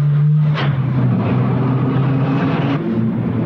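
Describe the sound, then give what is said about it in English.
A Land Rover's engine roars steadily and loudly, with a couple of brief bangs breaking through, as the vehicle crashes through a building's front doors and bounces down steps to the street. “The Land Rover crashes through the building's front doors and bounces down steps to the street below”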